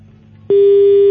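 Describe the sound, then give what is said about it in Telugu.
A telephone busy tone sounds after a call disconnects: one steady, mid-pitched electronic beep, about half a second long, on its own. “Call cut అయినట్టుంది”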